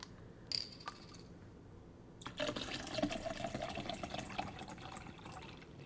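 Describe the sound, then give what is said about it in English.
Water is poured from one water bottle into another, held right by the mic. A few light taps come first, then a steady trickling, gurgling pour fills the last few seconds. “I'm going to fill my water bottle really quick with my other water bottle”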